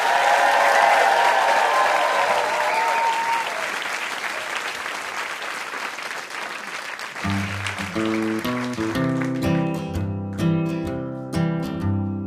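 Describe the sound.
An audience applauds game-show contestants with loud, dense clapping for about seven seconds, then the clapping fades as music begins.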